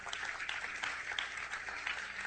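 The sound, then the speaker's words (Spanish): Faint, steady applause from a church audience during a sermon, a dense wash of many hands clapping at once without pause. “Denle un aplauso, Señor, vamos.”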